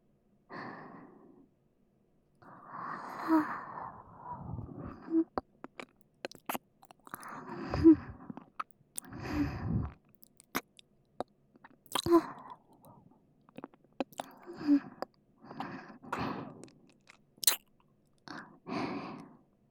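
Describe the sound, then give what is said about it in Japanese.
Soft ASMR ear nibbling: gentle wet mouth clicks, small bites and breathy exhales come in many quiet bursts separated by short silences. “ご要望にお答えして、ご主人様に気持ちよくなっていただけるように、お耳を甘噛みさせていただきます。”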